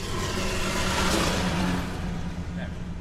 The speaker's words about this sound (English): It's coming back again. The tank has just overtaken us again. It's gone straight through a red light.